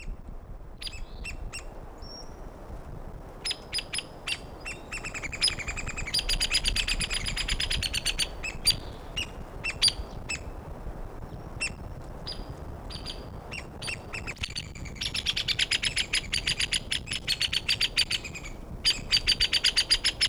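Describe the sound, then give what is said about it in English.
A pair of woodpeckers calls near a probable nest site, with the male giving the loud notes and the female the low-pitched ones. Many sharp, high calls come in rapid bursts throughout, growing denser toward the end. “Hey, woodpecker number one recorded near probable nest site. Males giving the loud notes, female nearby giving the low pitched notes.”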